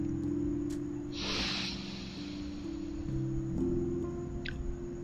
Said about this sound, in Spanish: Vamos a inhalar nuevamente.